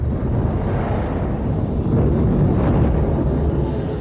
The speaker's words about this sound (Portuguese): Quando esta anã branca atinge uma vez e meia a massa do Sol, ela explode. É uma supernova tipo 1.